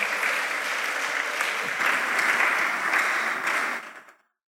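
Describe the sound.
Applause from a church audience welcoming a pastor to the front: steady, dense clapping holds at an even loudness for about four seconds, then stops abruptly.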